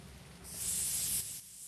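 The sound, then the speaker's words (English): A can of WD-40 lubricant sprays a mower tow bar ball: one steady hiss lasting about a second, rising in and cutting off, with no voices. “He sprays the ball of the mower's tow bar with the clear lubricant, then discards the can at the base of a tree.”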